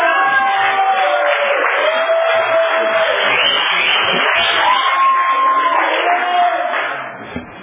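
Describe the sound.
Applause from an audience at an AA meeting welcomes the evening's speaker: dense, steady clapping that holds for about seven seconds before trailing off at the end.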